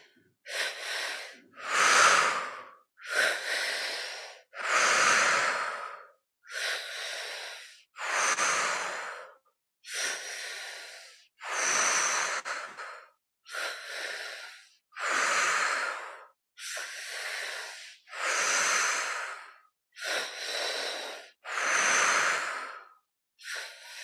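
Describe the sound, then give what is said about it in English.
Deep breathing in and out during a guided breathing exercise: a long, even series of airy, faint breaths, each drawn out for about a second with brief gaps between, with no talking. “And now, when you're ready, let's start the breath together.”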